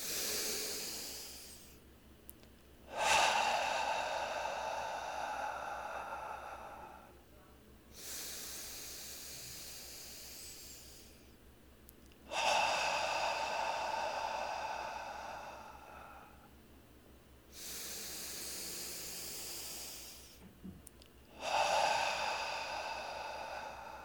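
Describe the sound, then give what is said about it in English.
Three slow, deep breaths drawn in through the nose, each a long airy rush of a few seconds, alternating stronger and softer surges in an even rhythm with short quiet gaps between. “let's take three breaths from that place. In through the nose.”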